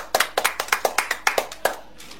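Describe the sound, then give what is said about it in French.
Children applaud a classmate during a Bible lesson, producing a short run of sharp, fairly evenly spaced claps that sound like only a few hands, ending after about two seconds. “Applaudissez pour elle.”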